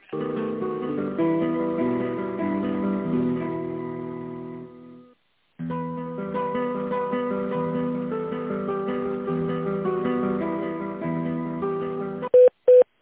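Telephone line sounds during a call transfer: a steady electronic hold melody plays, breaks briefly, resumes, then ends in a few short beeps.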